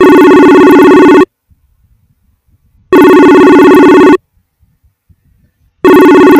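A telephone rings loudly in bright electronic bursts, each lasting a little over a second with near-silent gaps between them. Three rings occur, and the last is cut off at the end.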